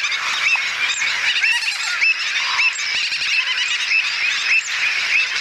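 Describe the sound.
A noisy mixed colony of terns, gulls, avocets, stilts and flamingos calling. Many shrill, overlapping cries blend into a continuous, dense clamour with no pause.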